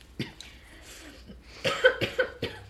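Coughing fit after inhaling saliva: one sharp cough, a short pause, then a rapid run of several harsh, fairly loud coughs bunched close together.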